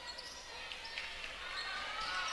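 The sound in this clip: A basketball being dribbled among four players during a semifinal game, its faint bounces buried under steady crowd noise that swells slightly toward the end.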